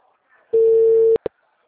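A telephone busy tone follows a dropped call: one steady, mid-pitched electronic beep lasting about half a second, then a sharp click and a brief blip, with faint quiet sound before the tone.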